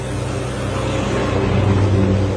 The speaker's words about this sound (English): Cars, military vehicles bombing up and down this road, going to and from the front.